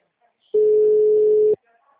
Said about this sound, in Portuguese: Aí, tá chamando, vamos lá.